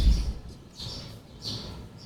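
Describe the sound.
Sparrows chirp in a few short, high bursts spaced at intervals, fairly faint over a low rumbling background.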